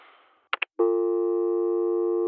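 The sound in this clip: A telephone busy signal from an accidental pocket dial: two short beeps, then a loud, steady, buzzing multi-tone held unchanged to the end.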